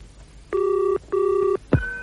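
Telephone ringing on the line after dialing a special help number: two evenly spaced, steady electronic ring bursts, then a brief sharp click and tone at the end.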